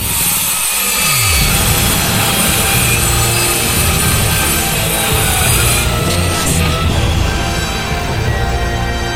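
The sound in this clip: A chainsaw engine drones loudly and continuously with a gritty, buzzing rasp that holds steady throughout, and a brief falling whine is heard near the start.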